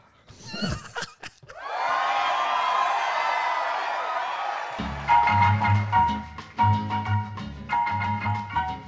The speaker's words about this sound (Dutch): Het was gewoon juich omdat het aflevering nummer 10 is.